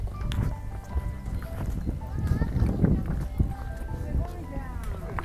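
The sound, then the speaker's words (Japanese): Footsteps of parent-and-child hikers descending Mount Daisen crunch and patter in a continuous uneven rhythm under ongoing talk. “降り始めたところを聞いてくださいえー、下山を始めています”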